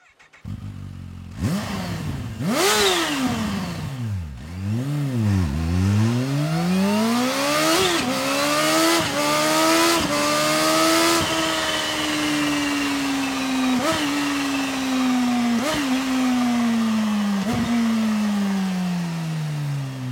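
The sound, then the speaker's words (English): Supercharged Kawasaki H2 motorcycle engine with an aftermarket exhaust revving loudly: a few quick rising-and-falling throttle blips, then a long sustained high rev punctuated by sharp cracks as it slowly settles. “Is that a Kawasaki H2? Yes. That supercharger is just so distinctive.”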